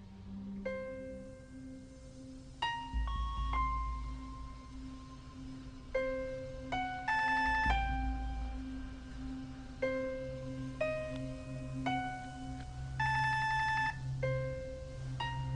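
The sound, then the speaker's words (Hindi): A telephone rings with a melodic electronic ringtone, a quiet series of beeping notes in repeating phrases over a steady low hum. “Phone उठा ले, जानता हूँ कि आप घर में हैं। फोन उठा ले।”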